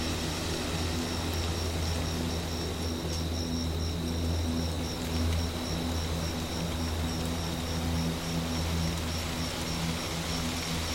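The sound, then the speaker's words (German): Crickets chirp softly in the evening, a faint, continuous high-pitched pulsing trill over a steady low hum that persists evenly throughout. “Das leise Zirpen der Grillen beginnt, die Abendmelodie einzuleiten.”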